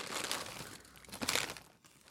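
A hand rummages in a crinkly bag to pull out a small prize, giving bursts of dry crumpling and crinkling, busier at the start and again near the middle, with brief quieter gaps.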